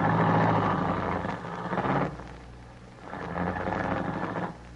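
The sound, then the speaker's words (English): A car driving up a long driveway and stopping, as a radio drama effect: a loud engine rumble fades down midway, then rises again and holds before cutting lower at the end. “I drove up the long driveway and stopped at the Walker Mansion entrance.”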